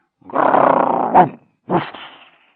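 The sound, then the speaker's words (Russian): A man wearing a dog-head costume gives a dog-like growl after slipping off a rug onto a hard floor: one long, rough, rumbling growl that ends in a sharp catch, then a shorter growl that trails off. “Случайно соскользнув с ковра и ударившись о твердый пол, он издал собачье рычание.”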